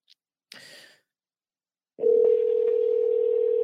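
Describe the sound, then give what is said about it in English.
A telephone call being placed back to someone who had rung in online: after a brief faint noise and a silent gap, a steady, loud, unbroken single-pitch line tone starts and holds to the end, with no voices. “Facebook caller, I think I'm calling you back. Let's see if it works.”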